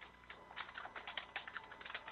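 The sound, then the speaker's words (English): Faint, steady typing on a computer keyboard, with many quick light keystrokes in an uneven rhythm. “You don't have to wait on me to type.”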